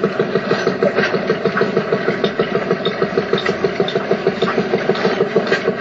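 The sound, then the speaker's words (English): A stationary engine running at an engine show, chugging at a steady idle with regular, evenly spaced pulses that continue throughout without any talk. “off to the stationary engines. And there are about 70 of them, I believe, according to the programme. We're not going to describe them all, so don't worry. But we may listen to them all as we go past.”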